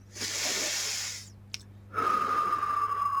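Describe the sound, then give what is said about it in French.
A person breathing in and then out during a relaxation breathing exercise: a long airy inhale, a short pause, then a breathy exhale, with a faint steady tone underneath the second part. “vous allez peut-être déjà prendre un inspire et un expire.”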